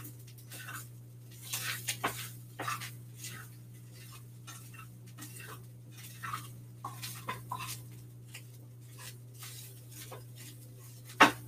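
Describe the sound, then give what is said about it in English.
A utensil scrapes and clacks against a pan while stirring Beyond Meat plant-based ground meat for a burger pizza. Many irregular, fairly faint taps and scrapes sound over a steady low hum, with no talking. “So now, I'm just going to let that cool down for a sec. Stir up my Beyond Meat.”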